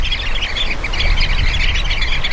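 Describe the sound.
A sociable flocking bird calls loudly: many overlapping squawks and chirps form a dense, continuous chatter for the whole stretch.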